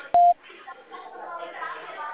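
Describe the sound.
A single short keypad tone from telephone dialing, a brief steady beep, followed by muffled talking on the line.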